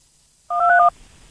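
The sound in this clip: Telephone keypad dialing tones as a call is placed: a brief burst of clear, steady electronic dual-tone beeps lasting under half a second, heard alone with no voices.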